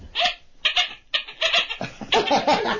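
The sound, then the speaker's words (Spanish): A voice imitates a hen clucking, giving a few short, throaty, clipped bursts in an uneven rhythm. “Y también es una gallina. Y también es una gallina. Una gallina, ¿cómo se dice? Que es una gallina.”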